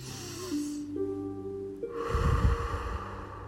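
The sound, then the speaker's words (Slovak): A person takes one long, deep, breathy inhale during a breathing exercise, rising over soft, sustained musical tones that step between pitches. “Pripravený? Nádych.”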